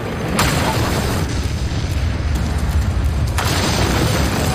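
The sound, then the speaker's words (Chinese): A powerful explosion as German demolition charges are set off on a bridge over the Rhine: a loud, sustained low rumble with two sharper bursts, one near the start and one later. “盟军打到了家门口，谢勒的下属德军上尉弗里森汉惊慌失措，按下了引爆按钮。”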